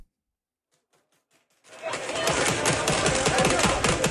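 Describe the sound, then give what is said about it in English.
Police firing pepper spray pellets during a raid in Ankara: after near-silence, a loud, dense burst of rapid popping shots starts abruptly and continues at a steady, harsh intensity. “police fire pepper spray pellets during a raid in Ankara.”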